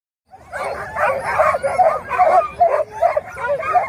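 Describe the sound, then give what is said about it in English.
Sled dogs barking at the start of a long-distance sled dog race in Anchorage: many dogs yip, bark and whine together in a dense, excited, continuous chorus. “That is the sound of some very good dogs at the start of the Iditarod in Anchorage on March 7th.”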